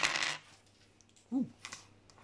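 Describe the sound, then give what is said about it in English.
Many dice rolled during a tabletop war game, a dense clatter filling the first half-second, followed by a few faint, scattered clicks later on. “I like rolling lots of dice.”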